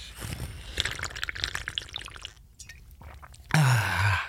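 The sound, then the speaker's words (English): A person drinks water in a run of gulps and slurps, then lets out a loud, satisfied exhale after a short pause. “Maybe it's dehydration. Maybe I should just drink some more water.”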